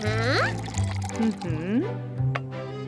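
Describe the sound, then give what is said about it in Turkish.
Milk and oil are poured into a batter, a soft liquid stream running beneath steady talk throughout. “Şimdi de sıvı malzemeleri ekliyoruz. Sıvıları, yani süt ve yağ.”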